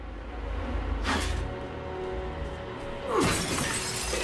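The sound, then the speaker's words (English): Glass shattering as a sledgehammer smashes the lights around a dressing table mirror: two loud bright crashes, the second followed by a sustained tinkling spray of falling shards. “As Meg smashes her dressing table mirror lights”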